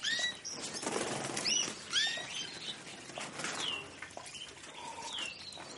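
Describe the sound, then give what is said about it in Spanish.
Wings flap and flutter as birds fly around a dining room, with a few thin chirps over a steady stream of soft, rapid wingbeats. “Los pájaros revolotean por la estancia. Uno de ellos se posa en una bandeja que hay sobre la mesa.”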